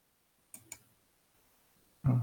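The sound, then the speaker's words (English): Two sharp, quiet computer mouse clicks in quick succession, set against near silence. “What happens if I click this bar on Facebook?”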